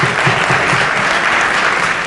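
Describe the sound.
Audience applause, loud and dense, with many hands clapping in a continuous, even wash and no pauses or voices standing out.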